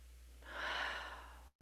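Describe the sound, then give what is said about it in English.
A slow, deep breath shared by a group, rising into a soft airy swell that fades away, over a steady low hum. Faint, with no talking. “Maybe we just take a moment now to take a deep breath together. One more.”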